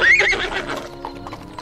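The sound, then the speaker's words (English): A mare whinnies and then trots away after her bridle is taken off, a high neigh at the start followed by the softer clip-clop of hooves fading out. “Here, get the bridle off and send the beast on its way. There you are, old girl. Off you go now.”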